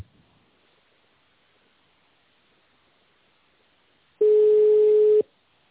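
A telephone ringback tone plays while an office call is being transferred: after near silence, a single steady, mid-pitched electronic beep lasts about a second, then stops.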